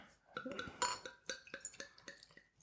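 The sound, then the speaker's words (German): A bottle of Mac Gargles Irish IPA beer is opened: faint glassy clinks and taps, one brief sharp crack near the start, then many small clinks in a quick, uneven rhythm over a couple of seconds. “Ja, komm, dann machen wir hier das nächste IPA auf, oder? Das Mac Gargles.”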